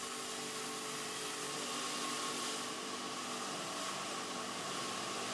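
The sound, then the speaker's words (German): A saw whines steadily as it cuts well-seasoned wood into pieces for wooden clogs at a family clog workshop, a loud, continuous machine drone with no talk. “Zunächst müssen aus dem gut abgelagerten Holz Stücke in die richtige Größe und Form gesägt werden.”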